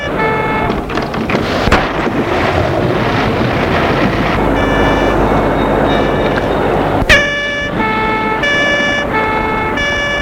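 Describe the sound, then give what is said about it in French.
A police vehicle arrives with its horn or siren sounding: blaring harmonic tones over dense, rumbling noise, then a sharp click followed by several clipped, loud horn blasts. No one speaks. “On entend la police qui arrive.”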